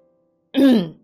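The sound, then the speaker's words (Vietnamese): Someone clears their throat once in a short, rough, guttural burst that rises sharply and fades within about half a second, following near silence. “Lập tức hắng giọng”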